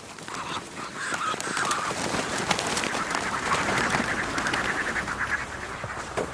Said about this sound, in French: J'adore ce bruit d'ailes. C'est les magrets qui sont en train de se développer.